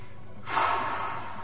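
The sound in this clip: A single deep breath, a soft rush of air that swells quickly and then tapers off gradually, heard alone without speech.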